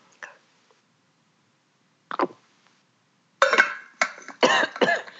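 Coughing from a tickle in the throat: a faint short cough, another after a pause, then a louder burst of several quick, harsh coughs in a row.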